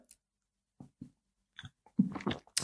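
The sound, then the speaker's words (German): Soft gulping as someone takes a big sip of a drink at a table: a few faint separate swallows, then a denser cluster of wet mouth sounds. “Gut, ich gebe mir jetzt noch einmal einen grossen Schluck da.”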